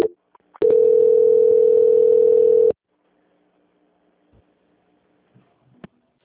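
Telephone line tone during a call transfer: one steady, unbroken tone of about two seconds, followed by near silence with a few faint clicks.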